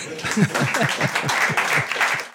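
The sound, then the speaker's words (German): Dense, steady applause from an audience at a live stage event, with a voice speaking over the clapping for much of it. “Ihr Applaus, ganz herzlichen Dank.”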